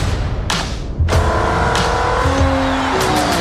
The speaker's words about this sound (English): That's it, folks. Ferrari wins the 24 Hours of Le Mans for the fifth consecutive year.